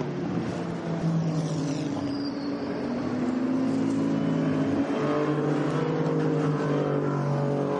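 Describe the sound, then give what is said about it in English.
Race car engines roar through the Porsche Curves at Le Mans during a three-hour championship race, a loud, continuous overlapping drone whose engine pitch shifts as cars pass. “As they come through Porsche curves at the moment, good to see they were going back racing.”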